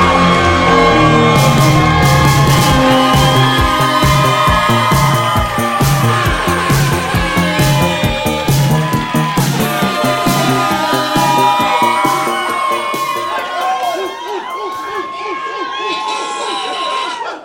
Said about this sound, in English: Make a round of applause for Adam Gillian!